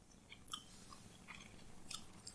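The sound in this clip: Faint, soft chewing and biting of young vegetables being tasted, with a few gentle crunchy bites over a quiet background hiss.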